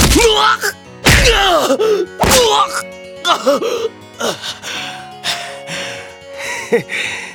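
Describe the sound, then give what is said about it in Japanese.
Fist punches land on a man in an anime drama fight, two heavy thumping blows followed by his pained groans, gasps and low moans. “旦那の鉄拳制裁か、なかなかパンチが効いてな。”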